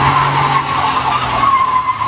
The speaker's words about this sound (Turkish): Lüks aracıyla caddeye gelen sürücü gecenin sessizliğini drift sesiyle bozdu.